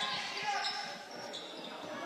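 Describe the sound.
A basketball dribbled on the court during a girls' playoff game, Negaunee at Westwood, with faint repeated bounces under steady background noise and talk.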